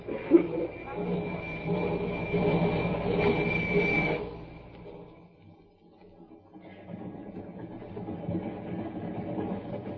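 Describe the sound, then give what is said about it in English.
A moving passenger train gives a steady rolling rumble with a thin high whine. The noise dips low around the middle, then the rumbling clatter builds again. “The train was a few minutes out of Glendale.”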